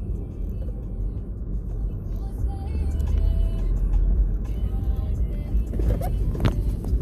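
Steady, low road rumble from a car driving along a road, with engine and tire noise. The drone holds even throughout, with no talk.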